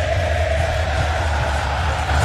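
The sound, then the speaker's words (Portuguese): Argentina football fans sing loudly at a World Cup group match against Algeria, a massed stadium crowd producing a thick, steady roar with a sustained tonal band of voices running beneath it. “O torcedor da Argentina está cantando. E está cantando alto.”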